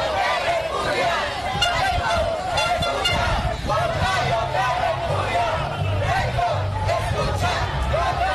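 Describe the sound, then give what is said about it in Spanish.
Crowd noise and blaring horns at a mass protest march against Keiko Fujimori in Huancayo, a continuous babble of voices with repeated honks and toots throughout. “Esta es otra marcha, es otra manifestación ya, mira, más masiva, de rechazo, de repudio a la presencia de Keiko Fujimori.”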